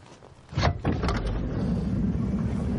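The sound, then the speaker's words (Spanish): A car door being opened gives a short mechanical clunk and rattle, followed by a steady, dense rushing noise with no voices. “abre la puerta”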